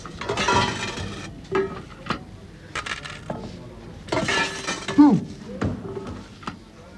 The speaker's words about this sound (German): Die Kassierer werfen Scheine und Münzen auf den Blechteller.